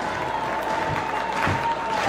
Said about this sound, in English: Fans clapping on their feet at Morabito Stadium on this Friday night.